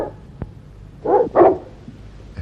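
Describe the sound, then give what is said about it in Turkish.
Dogs barking: two short, loud barks in quick succession break an otherwise quiet stretch. “Niye havlıyor bunlar? Nereye gidiyor köpekler?”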